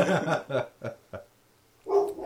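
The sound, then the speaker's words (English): A dog barks in the background, a few sharp barks in quick succession, then a couple of single barks separated by pauses, and a final longer bark after a quiet gap. “That's my dog in the background. I don't know what he's barking at.”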